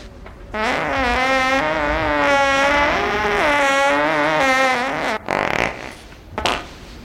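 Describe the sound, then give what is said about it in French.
A long, drawn-out fart in a small room, a buzzy tonal rasp that wavers in pitch for about five seconds, followed by a few short, rough bursts, with no voices. “Tu viens de péter, là? Ok, j'ai pété, oui, soyons honnêtes, c'est vrai.”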